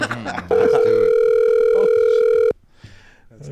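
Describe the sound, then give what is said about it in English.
An outgoing phone call gives a steady ringback tone, one unbroken two-second burst, with brief talking before and after it. “Well, let's give him a call right now and get more information about Perfect Game and see if we can find out more about the organization. Come on, Cookie. Answer the phone.”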